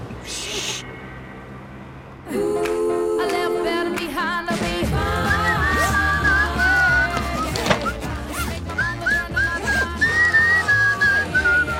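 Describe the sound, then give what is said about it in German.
Someone whistling a wavering, high, clear melody in short repeated phrases, heard over a dense, continuous background of other sound. “Kannst du mit dieser dämlichen Pfeiferei aufhören?”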